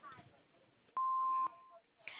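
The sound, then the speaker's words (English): An answering machine beep sounds as a single steady, clear tone lasting about half a second, with brief faint talk around it. “So if you'd like to leave us a message, please do so at the beep.”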